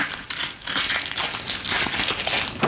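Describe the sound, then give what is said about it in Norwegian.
A large cylindrical package holding an art print is unwrapped, with steady loud crinkling and crackling of paper or plastic wrapping and a few sharper crunches throughout. “Etter å ha vunnet I et lotteri åpner hun nå et av den anonyme gatekunstneren Pøbel sine nyeste trykk.”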